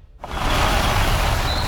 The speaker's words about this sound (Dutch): Met de elektrische Jeep Adventure is het avontuur altijd dichtbij.